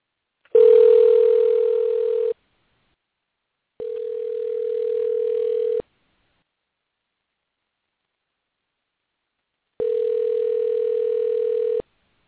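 A phone's ringback tone sounds on an outgoing call as it waits to be answered. Three loud, steady, buzzing rings of about two seconds each are separated by silent gaps, and no one speaks.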